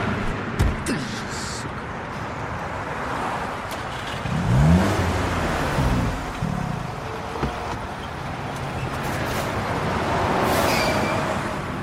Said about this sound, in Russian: Машину, машина не заводится.